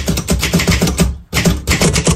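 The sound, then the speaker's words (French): A ribbon typewriter typing in a fast, steady rhythm of loud clacking keystrokes, with one short break about halfway before the clatter starts again. “1886, dépôt du brevet de la machine à écrire à ruban.”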